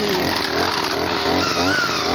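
An engine runs at idle, a loud, dense, steady drone with a rough low rumble, its pitch edging upward in the latter part as it begins to rev.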